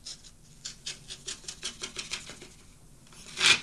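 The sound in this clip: An envelope slit open with a cutlass pushed under the flap, heard as a steady run of soft, rhythmic scraping strokes that ends in one louder tearing rasp.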